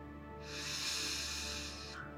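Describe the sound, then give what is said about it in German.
A deep breath drawn in during a guided meditation is heard as one long, steady, airy hiss of inhalation, rising smoothly and holding for well over a second before fading. “Nimmst nochmal einen tiefen Atemzug. Atmest tief ein.”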